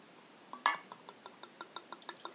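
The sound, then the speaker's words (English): Wine glugging from a bottle into a glass, a steady series of many short, evenly spaced liquid pulses with a bright glassy ring, one stronger splash near the start. “Alright, just a little bit. You know, just a little bit. That was a perfect fucking pour, too, by the way. No spillage or nothing.”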